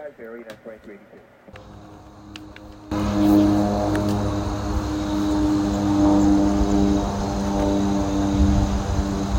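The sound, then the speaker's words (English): A propeller aircraft drones outdoors, a loud, steady engine hum with strong tonal layers. It sets in suddenly after a few seconds of clicks and handling noise, then holds at an even level to the end. “We're going to head outside and hopefully get some aircraft on file for you all, along with some aircraft Communications.”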